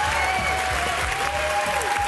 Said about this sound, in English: You got a standing ovation.